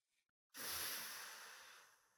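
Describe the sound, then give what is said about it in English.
One deep inhalation during a guided breathing exercise, a soft airy hiss that starts abruptly after a short silence and slowly tapers, faint and alone. “Take a deep breath in.”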